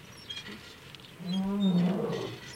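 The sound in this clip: A lion roars: one long, deep, rumbling growl with rich harmonics. It swells out of a quiet background, holds loudly for about a second, then fades away.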